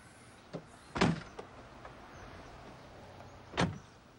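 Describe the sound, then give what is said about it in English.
A rear door of a tan SUV is shut after luggage is loaded into the boot, giving two solid, low thumps a few seconds apart, with a softer knock before the first. “He heaves the larger case into the boot. He stacks the other cases and bags on top and shuts the rear door.”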